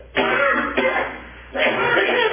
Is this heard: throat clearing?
yes